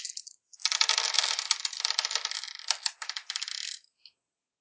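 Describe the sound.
Nine dice rattled and rolled, a dense, quick clatter of many small clicks lasting a few seconds, then a brief pause and one last faint tap.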